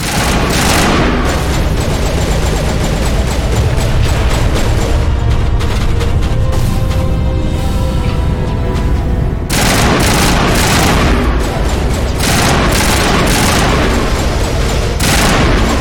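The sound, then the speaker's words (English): Video-game gunfire fires burst after burst at a turret, a dense, loud stream of rapid shots and booms that pauses briefly near the middle and then resumes just as heavily. “Alright, takes about 5 bursts to get a turret down.”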